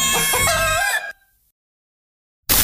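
A rooster crows once, a loud harmonic cock-a-doodle-doo about a second long, followed by silence and then a brief burst of noise at the very end.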